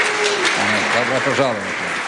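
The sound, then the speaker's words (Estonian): Applause from a church audience welcoming a visiting pastor from Kharkiv and his family. It is a dense, steady wash of clapping with a voice speaking over it. “Ütleme teile aplausiga tere tulemast.”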